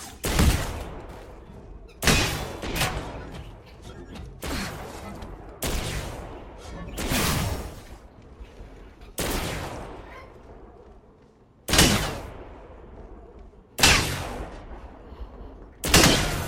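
Apex Legends video game gunfire: loud bursts of shots with sharp attacks and decaying tails, recurring every second or two throughout.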